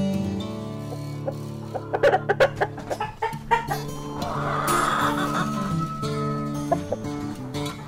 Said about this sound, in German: Zweinutzungshühner hingegen legen deutlich weniger Eier, wachsen langsamer und wiegen weniger. Das heißt, sie bringen weniger Ertrag.